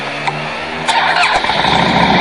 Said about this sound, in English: motorcycle, okay? It's a Harley Davidson. And it sounds like this.